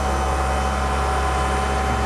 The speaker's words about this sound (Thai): พอเราสตาร์ทเครื่องเปิดเครื่องปรับอากาศแล้วนะฮะเราก็จะเร่งเครื่องที่ 2,000 รอบนะครับ